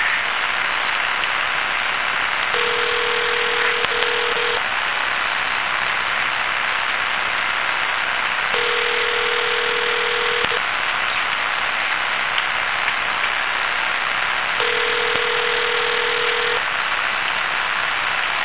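Three evenly spaced telephone rings, each a two-second steady tone with long pauses between, heard through a constant hissing line static.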